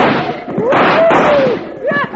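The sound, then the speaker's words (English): Gunfire rings out in a radio western drama: loud, broad bursts of noise cut through the scene, and a voice speaks near the end. “I shot one of them's hat off.”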